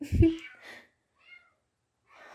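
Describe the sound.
A stray female cat meows outside, a few cries with the first sharp and loudest and later ones softer and shorter, with a brief faint call near the middle.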